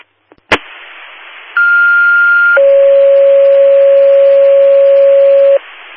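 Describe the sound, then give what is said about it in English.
Fire dispatch alert tones for a medical aid call: a short click, then a steady higher tone for about a second, followed by a longer, lower steady tone that holds for about three seconds before cutting off. “Linda Fire Personnel, general tones for medical aid, 1478 Dodson Avenue for side pain.”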